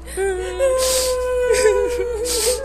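Children cry in the night, a thin, high, wavering whimper broken by breathy, sobbing gasps.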